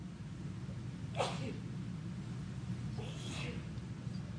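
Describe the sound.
A short sneeze bursts out faintly during a sermon about Jesus as mediator. It sits over a steady low hum, and a second similar burst follows a couple of seconds later.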